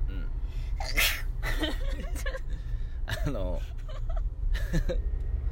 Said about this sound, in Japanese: くしゃみしやとってくれへん、ラジオ中に。